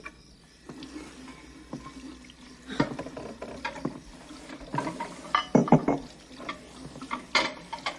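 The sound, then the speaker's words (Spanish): Water running in a kitchen sink as dishes are rinsed, with irregular splashing and a few sharp clinks of glass and crockery, fairly quiet and growing busier toward the end. “En la cocina ella está en el fregadero”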